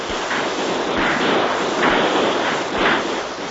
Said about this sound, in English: Have your men fire a volley over the stockade.